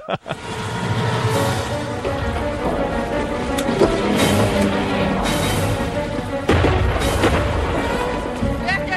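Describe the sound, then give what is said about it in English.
Explosions tearing through a building in a TV drama scene involving gas: a loud, dense roar of rumbling and crashing debris, with a few sharper bursts breaking through the continuous blast. “The whole place is exploding.”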